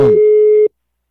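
A single steady telephone line tone sounds as a call is placed: one unbroken beep lasting just over half a second, followed by silence, with a brief burst of noise at the very start.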